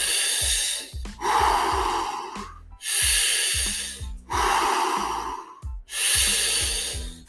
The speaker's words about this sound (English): We've got 10 more breaths.